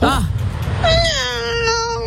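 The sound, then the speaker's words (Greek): A person imitates a cat's meow with the voice: first a short wavering cry, then one long, drawn-out tonal meow that holds to the end, loud and clear with no other talk over it. “Εγώ νομίζω κάνω πάρα πολύ καλά τη γάτα.”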